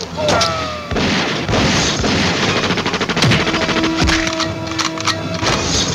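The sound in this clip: Machine-gun fire sound effect from an audio drama: loud, rapid bursts of shots with heavy booming hits. A sustained rattling stretch sits in the middle, and the firing continues in sharp volleys to the end.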